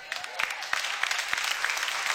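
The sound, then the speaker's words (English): An audience applauds in a dense, steady wash of clapping for about two seconds, with a few sharper claps standing out. “Well, they didn't clap like you're clapping.”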